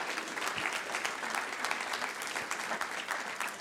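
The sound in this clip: Church audience applauding to welcome a speaker to the front: steady, dense clapping from many hands, moderately loud and even throughout, with no talk over it.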